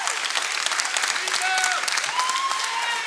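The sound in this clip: A church audience stands, applauding and cheering together in a dense, loud, sustained wash of clapping that holds steady throughout.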